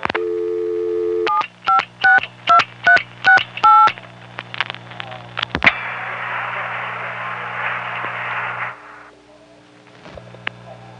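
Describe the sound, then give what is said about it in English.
Touch-tone dialing of a vacant phone number: a steady line tone, then a quick run of evenly spaced DTMF beeps, followed by clicks and a sustained burst of line hiss with a low hum. “Now dialing a 756 vacant number, 2368.”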